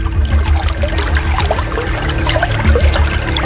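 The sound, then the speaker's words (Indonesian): Water gushes steadily out of a hole left by a stick, a loud, continuous splashing and trickling flow with a low hum beneath it. “Lihat airnya keluar dari lubang lidi itu.”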